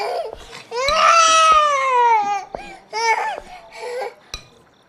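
A baby cries at mealtime in a few high, wavering wails, broken by short pauses and softer whimpers. Each cry rises and trails off, then a shorter burst follows near the end.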